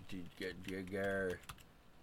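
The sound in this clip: Faint typing on a computer keyboard, a few scattered key clicks mixed in with a voice talking quietly.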